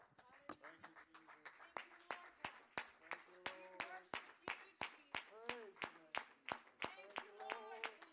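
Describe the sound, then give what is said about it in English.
A church audience claps in praise, many hands striking together in a steady, even rhythm that runs throughout, with voices carrying on over the beat. “Let's all stand together this morning. Give Jesus a big hand clap of praise today.”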